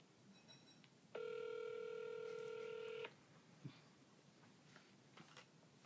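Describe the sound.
A telephone number being dialed, heard as one steady electronic keypad tone that holds for about two seconds and then cuts off, leaving quiet background with a few faint, brief noises.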